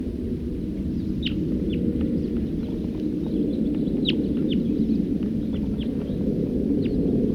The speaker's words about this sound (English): Here comes a number of birds. Stop, wild bird.